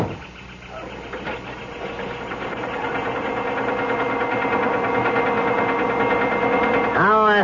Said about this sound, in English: I got a call from the chalet to hold the car for you. Leaving? Yeah. All right, hop in. We're off.